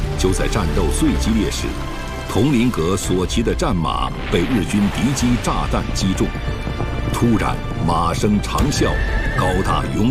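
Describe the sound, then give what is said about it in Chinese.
A war horse neighs after being struck by an enemy aircraft's bomb in battle, giving repeated loud, wavering whinnies with some hoof clatter, mixed under continuous talking voices throughout. “佟麟阁所骑的战马被日军敌机炸弹击中，突然马声长啸”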